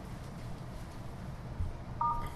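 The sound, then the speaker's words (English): A single short telephone keypad tone beeps on a conference call line, a brief electronic chirp over faint line hiss. “Dial the number, then press the pound key. To return to conference, press star.”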